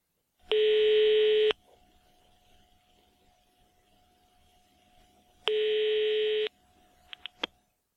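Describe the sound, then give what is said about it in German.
German telephone network signal tone: a steady, loud beep lasting about a second, a pause of roughly four seconds, then the same beep again, followed by a few short clicks. “Hören Sie die Signaltöne des deutschen Telefonnetzes.”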